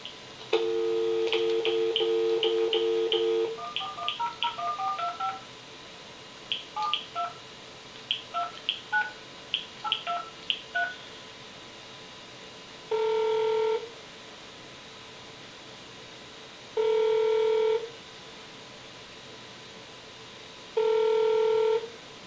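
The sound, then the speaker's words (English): Telephone keypad tones dial into a voicemail system: a steady tone first, then a long run of quick, uneven beeps, followed by three evenly spaced, longer ringback tones between quiet gaps. “in this part of the demonstration, I'm going to send a voicemail message to Ken”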